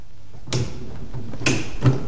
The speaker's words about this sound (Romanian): plină de sfială, ciocăni ușurel în ușa din lemn înnegrit, cioplită în formă de inimă.